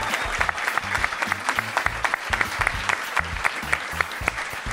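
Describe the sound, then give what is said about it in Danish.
Audience applause for a guest: dense, steady clapping from a crowd that stays loud throughout without a break. “vil I så ikke give en stor hånd til vores gæst”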